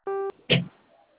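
A telephone keypad tone sounds as the zero key is pressed: one short, clean beep, followed moments later by a brief burst of sound and then near silence.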